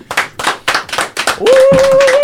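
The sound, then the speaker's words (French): Audience clapping at a small concert before a band plays: a run of regular, sharp claps in a steady rhythm. It then gives way to a sustained clear tone over a denser, continuous wash of sound. “Et on l'applaudit, prêt, s'il vous plaît.”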